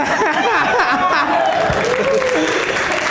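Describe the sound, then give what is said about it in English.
Audience cheering and applause at a live comedy show, rising after a can of LaCroix is thrown in a game. Loud, dense clapping mixes with shouts, whoops and laughter from the crowd. “More people cheered for the demise of LaCroix than anything else tonight.”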